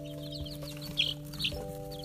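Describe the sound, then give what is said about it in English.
Baby chicks chirping, with two brief high-pitched peeps rising faintly above a steady low electrical hum. “And as you probably can hear, I'm here with my chicks right now. They want to say hi.”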